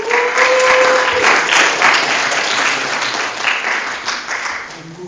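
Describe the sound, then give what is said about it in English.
An audience at a campus ministry gathering applauds to welcome a speaker to the front. The clapping is dense and steady and eases off gradually near the end. “But if y'all give Jonathan a hand as he's coming up, and welcome him.”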